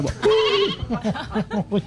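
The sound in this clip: A person imitates a sheep bleating: one long, wavering, nasal bleat, then a quick run of several shorter, choppy bleats. The voice is loud and stands alone.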